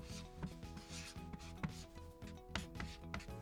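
A pen writes a message on a shikishi autograph board, making faint, soft rubbing strokes at an uneven rhythm beneath a low, quiet background.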